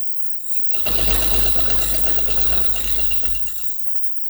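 A sewing machine starts after a brief quiet moment and then runs steadily while sewing, a loud continuous mechanical whir with slight fluctuations.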